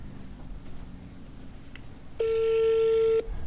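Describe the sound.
A phone ringback tone sounds while someone waits for their call to be answered: one steady, buzzing tone lasting about a second rises loud above a low background murmur, then cuts off.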